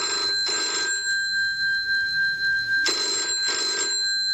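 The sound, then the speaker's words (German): A telephone rings with an incoming call in two double-ring bursts, each made of two short, bright trilling pulses, with a pause of about two seconds between the pairs. “Und mitten in dieser Adventszeit bekommt Lia Wiese einen Anruf ganz besonderen Inhalts.”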